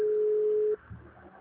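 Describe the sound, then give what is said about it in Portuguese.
A busy tone follows a dropped phone call: one steady beep lasting under a second, then an abrupt cutoff into a faint, low murmur. “Caiu a ligação, irmão. Caiu.”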